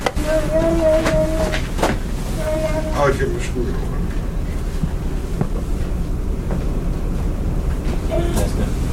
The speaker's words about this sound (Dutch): Waar komt het geluid uit? Uit de marifoon.